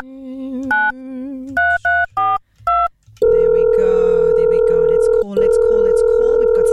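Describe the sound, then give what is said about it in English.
Telephone keypad tones ring out as a number is dialed: a few short electronic beeps in quick succession, then a steady sustained tone that breaks off briefly and resumes. “Okay, let's give it a dial.”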